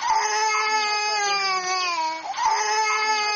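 A baby cries inside the Obili Catholic church in Yaoundé, letting out two long, loud, high-pitched wails with a brief catch of breath between them.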